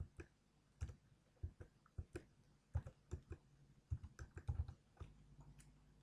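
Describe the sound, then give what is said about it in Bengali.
Keystrokes on a computer keyboard as a password is typed while setting up a Gmail account: many quick, irregular clicks, quiet and steady, with no talking. “যেমন আমার password লিখতেছি, তারপরে sure হওয়ার জন্য পাসওয়ার্ডটা আবার আরেকবার লিখতে হবে”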